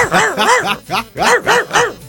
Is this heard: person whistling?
no